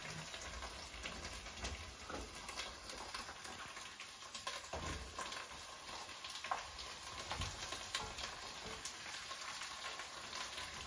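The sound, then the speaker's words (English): Potatoes sauté and are stirred in a pan, giving a faint, steady sizzle. Scattered small crackles and pops run through it from start to end. “So we're adding in our potatoes slowly while continuing to saute and stirring.”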